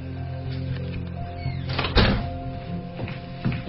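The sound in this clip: A door opens after its lock has been picked: quiet metallic rattling, then one louder thunk partway through and a fainter knock near the end, with no talking.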